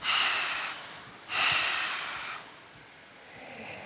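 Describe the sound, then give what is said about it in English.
Two forceful exhales through an open mouth during a breathing exercise, a short airy rush followed after a brief pause by a longer one, then faint quiet breathing. “And then when you come to exhale, open the mouth, double breath out.”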